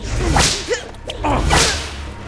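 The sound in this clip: Whip lashes strike a person in punishment: two loud, sharp swishing cracks about a second apart, each a bright burst that quickly fades, with a smaller snap between them.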